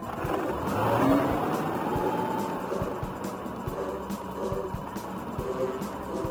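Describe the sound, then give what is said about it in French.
Engine hum of a director's small motorized cart being driven, a steady rumbling drone with faint, regular ticking throughout and no voices. “Ah, voici le directeur et sa voiturette.”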